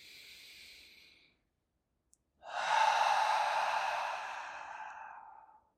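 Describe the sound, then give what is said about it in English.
Deep breathing during a guided breathing exercise: a soft, airy breath, a short silence, then a long, loud, sigh-like exhale that slowly fades away, with no talking. “Breathing big deep breaths through it.”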